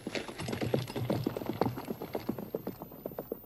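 Horses' hooves clip-clop as riders set off, a steady run of many quick, faint hoofbeats in an even rhythm with no talking.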